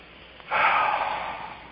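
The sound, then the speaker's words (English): A single long, deep inhale taken during a guided group session at the start of an evening gathering. The breath is steady and airy, swelling suddenly and holding for over a second before easing off slightly, with no talk over it. “Please, everybody, take a nice deep breath.”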